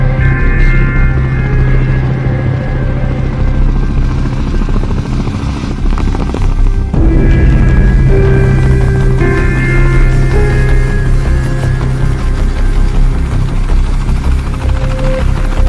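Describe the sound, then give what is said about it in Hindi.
An aircraft coming in to land after an operation gives a loud, steady engine roar with a heavy low thrumming drone and dense hum. It holds level throughout, with only a slight shift in tone midway. “ठीक है, landing की इजाजत दी जाती है। मैं land कर रहा हूं।”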